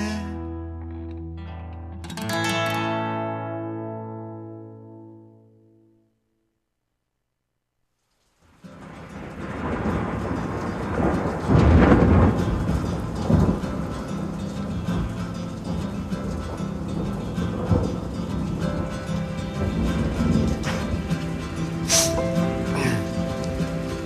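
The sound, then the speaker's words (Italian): Heavy rain pours in a steady, dense hiss of patter. A few ringing tones and a short silence come before it, and faint tonal sounds continue beneath the rain. “Senti come piove, Madonna come piove, senti come viene giù.”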